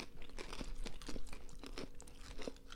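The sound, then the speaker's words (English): Burnt pizza crust is bitten and chewed, giving many quiet, dry crunches in an irregular rhythm with no voices. “Taste the crust and it's burnt and you'll like it way more.”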